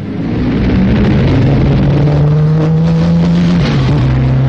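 Light racing cars in a Junior Car Club race at Brooklands, with a loud, steady engine drone that holds one low pitch before briefly dipping near the end.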